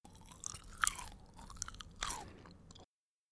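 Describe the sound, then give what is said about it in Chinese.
Faint, moist chewing of a Vietnamese fresh spring roll filled with shrimp and pork slices. Several soft crunchy bites and squelches are heard alone, then the sound stops just before the end. “哇，里面包有好多料哦，有虾子、肉片。我现在尝尝看味道。”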